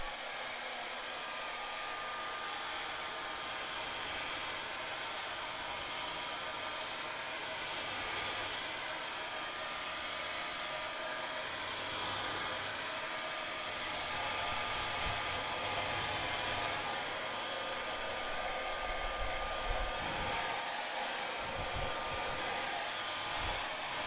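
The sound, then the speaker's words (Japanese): A hair dryer blows steadily while drying someone's hair. The motor roar and rushing air hold constant throughout, with a thin whine on top and slight shifts as the airflow moves. No one talks. “髪を乾かします。”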